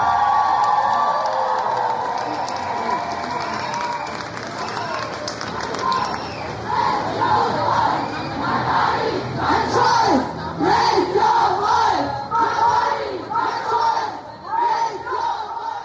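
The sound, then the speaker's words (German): A crowd chants at a feminist International Women's Day street demonstration in Erfurt's city centre. Loud rhythmic shouted voices come in repeated bursts, building to strong pulsing chants in the second half. “So klang es am Sonntag auf der 8. März-Demo in der Erfurter Innenstadt”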